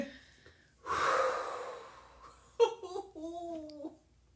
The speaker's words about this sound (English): Can we pause? Let's just take another deep breath.